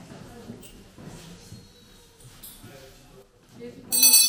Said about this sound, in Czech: Takže zazvonil zvonec a vyučování je konec.